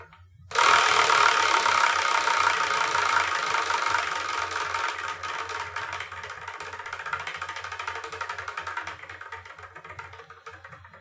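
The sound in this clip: A prize wheel spins with a rapid ratcheting tick that starts abruptly, keeps a fast steady rattle, then gradually slows and thins out as it fades.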